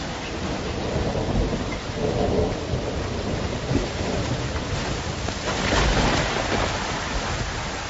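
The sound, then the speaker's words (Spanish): Thunderstorm with heavy rain on a night before winter: a dense, continuous roar of rain with deep rolling thunder that swells at a few points and never fully fades. “Una noche antes del invierno, llega una tormenta que parecía el resfrío del infierno”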